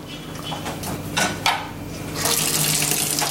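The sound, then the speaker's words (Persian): Water from a leaking tap, with a few soft knocks and splashes at first and then a steady rush of running water for the last second. “نکن داره چکه میکنه بابا، ببندش.”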